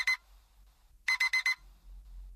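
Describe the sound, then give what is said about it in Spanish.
An alarm clock rings with loud electronic beeping: one short burst, a pause of about a second, then four quick bursts in a row, with no talking. “Queda menos para que el impertinente despertador nos recuerde que se acabaron las vacaciones.”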